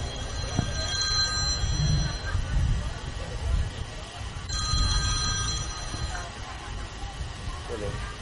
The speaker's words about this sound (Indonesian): Ngerti pengajian kok ditelepon-telepon.